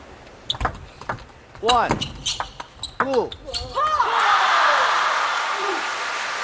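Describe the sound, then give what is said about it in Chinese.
A table tennis ball bounces during a serve in a match, with several sharp ticks under a talking voice, followed by a swelling crowd roar. “现在是佐藤桐发球。”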